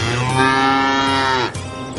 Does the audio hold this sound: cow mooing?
yes